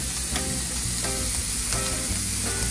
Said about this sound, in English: now I'm gonna add in my spinach. I chopped it up so it cooks a little faster.